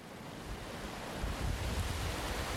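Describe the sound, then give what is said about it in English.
Wind and breaking surf on a wet, windy British coastline make a continuous broad roar that swells a little louder partway through the short stretch, with no voices. “This wet and windy stretch of British coastline might seem a far cry from the heat and dust of the African savanna”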